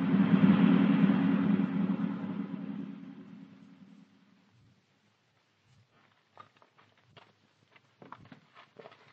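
A car engine sound effect for a fast-driving car in a radio drama: a steady mid-pitched engine drone that fades out over about four seconds, then near-silence with scattered faint taps and clicks.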